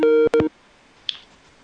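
Telephone line tones sound as a call connects on a radio call-in line: two short steady tone bursts in quick succession, then a faint brief chirp.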